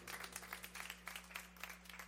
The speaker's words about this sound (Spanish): Un aplauso para Samuelito.